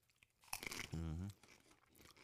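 A potato chip crunched between the teeth: one short crackly bite, followed at once by a brief hummed vocal sound, then quiet chewing noise.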